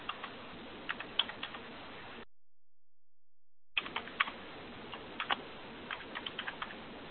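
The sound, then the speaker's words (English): Keys on a computer keyboard clatter as a user ID and password are typed: two quiet bursts of irregular keystrokes separated by a silent pause, with no voices. “Entering the user ID and the password.”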